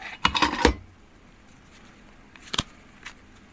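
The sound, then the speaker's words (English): Handling of a deck of playing cards as it is drawn from its box: a short burst of crackly scraping and rustling at the start, then a sharp tap later and a fainter tick, with quiet in between. “get yourself a deck of cards like these. And I'm going to take them out.”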